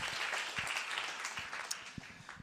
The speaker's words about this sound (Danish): jeg synes, I giver en stor hånd